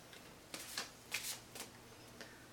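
Playing cards being handled and drawn from a deck during a card reading, with a few soft, papery snaps and slides that come in short, irregular bursts and stay faint throughout.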